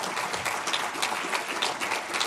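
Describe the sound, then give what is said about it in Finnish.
A standing audience applauds a school principal's speech. Many hands clap in a dense, even patter that holds steady throughout at a moderate level. “Ja meillä on itse asiassa tapana aina antaa seisaltaan aplodit, kun rehtori puhuu, että olkaa hyvä.”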